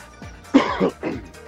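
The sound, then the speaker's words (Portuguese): A man coughs heavily, giving a few rough, throaty bursts of coughing and throat clearing in quick succession, with brief pauses between them and no speech. “Tá tossindo muito.”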